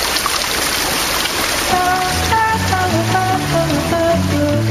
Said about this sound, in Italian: Ascolta, il fiume che costeggia il bosco.